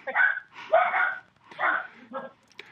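A dog barks in a few loud, drawn-out barks with short gaps between them, then a softer, briefer yip at the end, with no talk over it.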